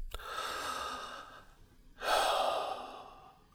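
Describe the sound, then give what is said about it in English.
A deep breath, a long airy inhale followed after a short pause by a fuller, slower exhale, with no talk over it. “Now take a deep breath and just rest for a second.”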